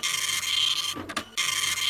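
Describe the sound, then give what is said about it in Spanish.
An old printer running, a steady high whirring drone that cuts out briefly near the middle, then resumes at the same pitch and level. “Digo yo, ¿no es un poquito antigua la impresora?”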